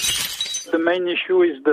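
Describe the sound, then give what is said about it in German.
Glass shatters as it falls to the floor: a short, bright burst of breaking at the start, followed by tonal, voice-like sounds. “Fällt Glas zu Boden, zerspringt es allzu leicht.”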